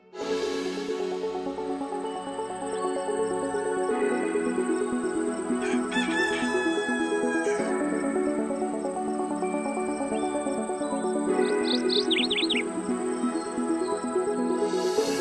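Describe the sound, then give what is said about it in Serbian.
Roosters crowing in a dense, continuous chorus with small birds chirping throughout; a quick burst of high chirps stands out near the end, and no one speaks. “Petlova i ptičica čujete i sami”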